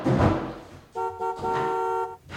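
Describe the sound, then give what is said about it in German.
A car horn honks repeatedly from far off, pressed several times in a row by a young man. After a brief burst of noise come two short toots and then a longer steady blast. “von fern ein Auto hupt. Der junge Mann, der wie verrückt gleich mehrmals auf die Hupe drückt,”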